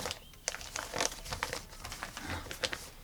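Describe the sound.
A paper envelope is handled, giving soft, continuous crinkling and rustling with a few slightly sharper crackles scattered through the quiet handling.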